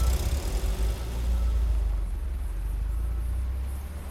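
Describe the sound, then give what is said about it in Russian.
A car's engine rumbles low and steady as the vehicle slowly drives away. The deep hum holds at an even, moderate level throughout, with no voices. “Незнакомцы обмениваются взглядами, и мужчина не спеша уезжает, кивнув головой.”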